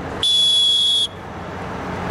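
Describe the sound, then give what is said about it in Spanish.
A referee's whistle in a soccer match sounds as a single shrill, steady blast lasting under a second, standing out over a constant low background noise. “Permíteme hasta el silbatazo, va.”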